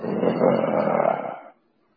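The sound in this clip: A voice imitates a lion roaring outside a tent at night: a single rough, growling roar lasting about a second and a half, fairly loud and steady before it cuts off into silence.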